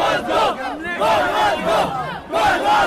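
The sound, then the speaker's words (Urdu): Over a thousand Pakistani-origin protesters chant slogans against Nawaz Sharif outside the UN building. The loud voices rise together in rhythmic, repeated bursts with short pauses between phrases. “جب نواز شریف اقوام متحدہ میں خطاب کر رہے تھے، اس وقت عمارت کے باہر 1000 سے زیادہ پاکستانی نژاد لوگ ان کے خلاف نعرے لگا رہے تھے۔”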